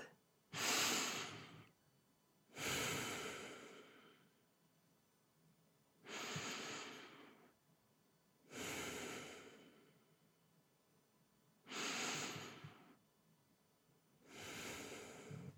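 Three slow, deep breaths from a person seated comfortably for a relaxation session, heard as six long, airy breath swells at an even, unhurried pace, with quiet pauses between them and no talk.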